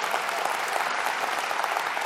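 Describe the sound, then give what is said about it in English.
Applause from a church audience, a dense and steady wash of many hands clapping that stays loud and even for the whole stretch without clear breaks. “yes, you go ahead and applaud.”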